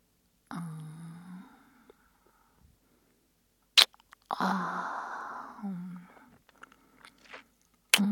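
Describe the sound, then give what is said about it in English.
Chocolate being bitten and chewed: a couple of sharp, crisp snaps of biting between quieter stretches of soft, wet chewing, faint overall with no talk. “chocolatey in front of my eyes, I can't help but want to take a bite.”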